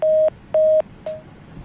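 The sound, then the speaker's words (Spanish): Telephone disconnect tone as a caller's line drops: two steady, mid-pitched beeps of equal length with a short gap between them, then a third, briefer and fainter beep, over faint line hiss with no talk. “Se le cayó la llamada.”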